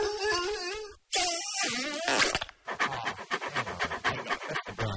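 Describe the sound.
A dog panting in many quick, rhythmic breathy pulses that run steadily to the end, preceded by a wavering tonal sound.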